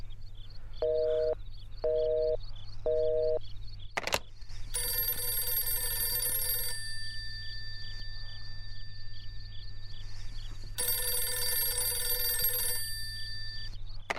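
A telephone rings unanswered, first with three short electronic beeps, then with two long, bright ringing bursts separated by a pause, over a steady low hum and faint repeating pulses.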